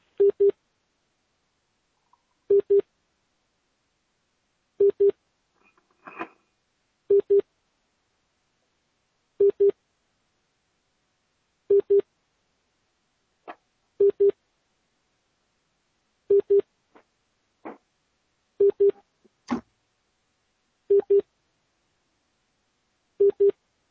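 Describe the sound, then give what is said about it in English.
Telephone ringback tones play while a call is transferred: a long, steady series of paired beeps repeats at an even interval, with a few faint clicks and blips between them. “Can you hold the line there and I'll just put you through to somebody? One second.”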